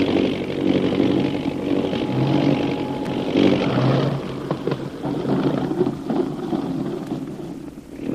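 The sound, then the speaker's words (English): A small plane comes in to land with a loud, steady engine drone and a rushing, wind-like roar that holds for several seconds without a break. “We're dropping now for a landing.”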